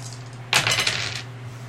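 Dice clatter across a table during a tabletop roleplaying game, many dice rolled at once for a critical hit. A single short burst of bright rattling sits over a faint steady hum, with no talking.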